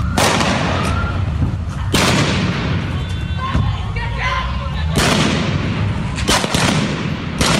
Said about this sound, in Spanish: Ahí está tirando ella y la policía le está tirando a ella.